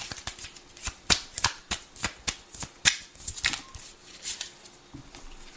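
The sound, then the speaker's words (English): Tarot cards being shuffled by hand: many quick, crisp riffles and soft slaps in an uneven rhythm of bursts, with no talking. “I want to pull some more cards. Can I have some more cards for the timeline of Libra, please?”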